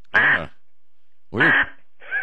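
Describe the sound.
Duck quacking: three short, nasal, harmonic quacks spaced apart, the first two loud and the last one fainter.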